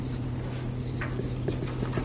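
Faint scratchy strokes of writing on a board during a class about nicotinamide adenine dinucleotide, a few soft marks over a steady low hum.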